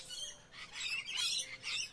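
Green parrot calling in a few high, raspy chirping bursts that rise and fade, fairly faint and heard alone without voices.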